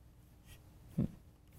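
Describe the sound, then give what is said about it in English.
A single soft computer mouse click in a simulator, one brief dull tap standing alone against a faint, quiet background. “So here's a simulator. I click on that.”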